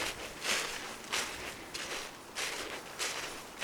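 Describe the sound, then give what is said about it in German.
Footsteps walk slowly out of a forest, faint and soft with a light crunch, six evenly paced steps in a steady rhythm with nothing else heard. “Und ich gehe jetzt langsam wieder raus aus dem Wald, zurück in die Stadt, zurück ins Leben,”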